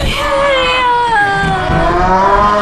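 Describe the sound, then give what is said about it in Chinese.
A young woman cries loudly in a long, wavering wail whose pitch drifts downward, and her sobbing continues throughout. “姑娘，别哭了啊！”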